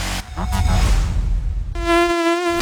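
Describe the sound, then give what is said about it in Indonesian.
An Aedes mosquito buzzes in a home with standing water. A loud, steady, droning whine holds one pitch with a rich, reedy edge. “Tempat lepak nyamuk. Alamak, nyamuk Aedes ni.”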